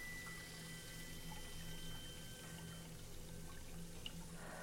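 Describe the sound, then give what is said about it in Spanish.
Water runs from a bathroom tap as a young woman washes her face. It is a faint, steady, hissing stream with no clear breaks. “Abre el grifo y se lava la cara.”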